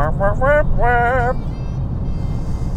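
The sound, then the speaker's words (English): A car climbing uphill on long straight stretches of a North Shore road near Vancouver, driven slowly: a steady low engine rumble throughout, with a person talking over it at first. “Climbing, climbing, climbing. I'm just doing long straight stretches here. I'm not driving very fast.”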